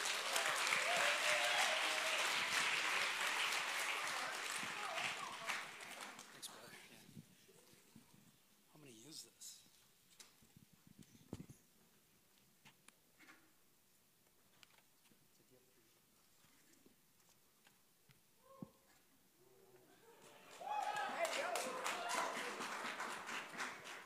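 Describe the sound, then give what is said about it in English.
Audience applause welcoming a speaker from Living Waters Ministries: loud, dense clapping for several seconds that fades into a quiet stretch with scattered small sounds, then a second strong burst of clapping near the end. “So let's give a big warm welcome to Mark Spence.”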